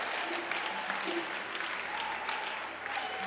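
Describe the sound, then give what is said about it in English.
An audience applauds performers at a live event, a continuous even wash of many hands clapping, faint and steady throughout without breaks. “Clap your hands for them.”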